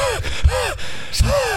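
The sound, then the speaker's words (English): A person imitates heavy breathing, used as a call in a frisbee game at summer camp: a few husky, voiced breaths in a loose rhythm, fairly loud with brief pauses between. “So the way we like called out for the Frisbee, we were just like breathing heavily.”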